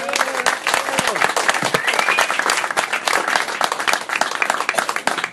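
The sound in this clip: An audience applauds as a man is called up at a Fetishman San Diego gathering, with loud, dense, sustained clapping and a few brief whoops over it.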